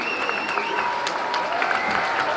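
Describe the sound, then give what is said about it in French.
Students applaud in a large university lecture hall for a visiting guest after a two-hour law lecture. The clapping is dense and steady, a continuous wash of many hands throughout. “Acclamé comme une rockstar, François Hollande”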